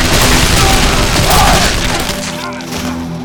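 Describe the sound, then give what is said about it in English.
A firing squad's rifle volley: a loud, dense crashing blast that fills the whole clip and fades slowly toward the end. “Men! Ready! Aim! Fire!”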